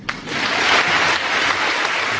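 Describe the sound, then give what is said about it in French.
Students in a full lecture hall stand and applaud Václav Havel at an honorary doctorate ceremony, a sharp first clap leading into sustained, dense clapping that holds steady to the end. “Amphithéâtre plein, étudiants debout pour applaudir Václav Havel qui remercie en français.”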